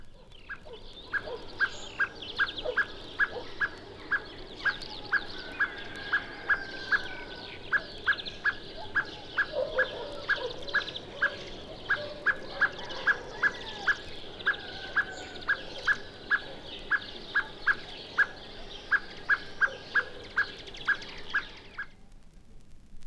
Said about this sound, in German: Hören wir nun den Bodenfeindwarnruf der Amsel, im Hintergrund Hämpflinge und Grünfinken.